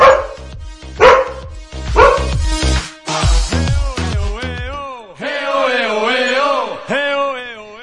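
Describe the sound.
Dog barking: a run of loud, sharp barks in quick succession, then a longer drawn-out tonal call, with no clear talk over it.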